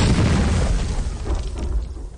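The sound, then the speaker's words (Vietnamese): Plastic explosive detonates underwater in a cave, throwing up a tall column of water. A deep, rumbling boom roars across the whole span and slowly fades. “Bản nương bị nổ tung, tạo thành cột nước cao 4-5 mét.”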